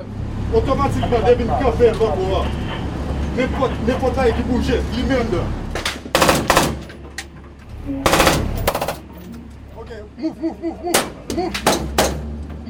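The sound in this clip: Bursts of gunfire during a street clash with a gang, sharp loud cracks in quick clusters that ring out after a stretch of talk and traffic-like rumble.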